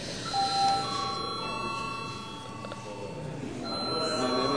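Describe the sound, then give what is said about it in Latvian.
A bell rung to call members to a vote in the Latvian parliament, heard as faint, sustained ringing tones with a soft murmur beneath. “Lūdzu, zvanu.”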